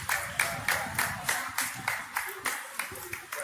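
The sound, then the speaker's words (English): People clap together in a steady, even rhythm, with many sharp claps spaced evenly and sustained at a moderate level throughout. “And they're clapping.”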